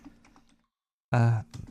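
Typing a phrase on a computer keyboard: faint, scattered key clicks, then a pause, then a loud, sustained tone that cuts off sharply.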